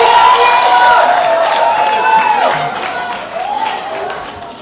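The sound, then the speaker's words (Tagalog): A crowd applauds loudly in a dense, continuous roar of clapping beneath a voice, easing slightly toward the end. “siguro talagang ginagawa nila yung trabaho nila mabuti at malakas ang palakpak nila”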